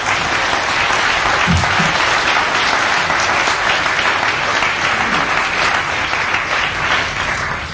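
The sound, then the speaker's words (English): Audience applause for a group of people named at a gathering: dense, steady clapping from many hands that fills the whole clip at an even loudness, with no voices standing out. “And I think we should stop right there and give them a round of applause for the wonderful”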